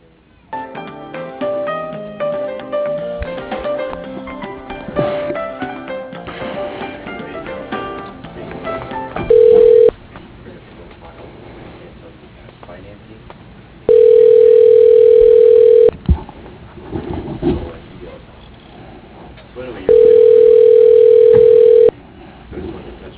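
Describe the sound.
Ringback tone of a telephone call being transferred: a steady mid-pitched tone sounds in three separate bursts with pauses between, after a stretch of busier background sound.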